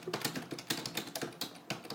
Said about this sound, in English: So I'll press, and I'll type in some words.